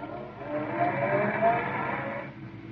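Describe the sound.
A car drives off toward the spaceport on the planet Boringwin. Its steady engine and road noise hold fairly loud for about two seconds, then cut away sharply. No one speaks.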